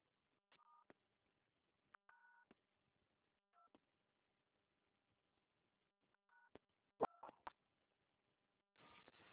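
Telephone dialing tones sound while a call is being transferred to a quality-control line: a series of short, sharp beeps in uneven groups, some doubled, ending with a longer, louder tone burst.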